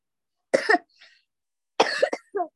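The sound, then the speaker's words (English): A little girl coughs in a few short, harsh bursts: a pair close together, a faint one, then a quick cluster of three, with silence between and no talk alongside. “I have a little girl with a cough.”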